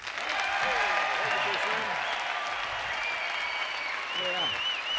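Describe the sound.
Audience applause welcomes a harmony singing group from California on its national radio debut: dense, steady clapping holds at an even level throughout, with voices audible over it.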